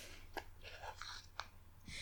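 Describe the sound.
Quiet chewing of rice and katsudon, a pork cutlet rice bowl with sweet sauce, gives soft, wet mouth sounds broken by a few small crisp clicks in an irregular rhythm, with no speech.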